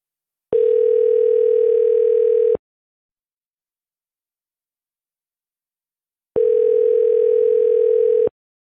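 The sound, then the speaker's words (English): Telephone ringback tone while redialing a number: two loud, steady single-pitch tones of about two seconds each, separated by roughly four seconds of silence. “Let's call it back one more time.”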